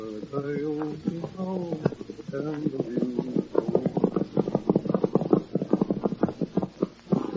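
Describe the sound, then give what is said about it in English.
Horse hooves clip-clopping as a lone horseman rides at night through lonely foothills, a steady rhythmic run of many hoof beats that follows a man speaking. “It is night. In the lonely foothills on the edge of the Circle E, a lone horseman is riding.”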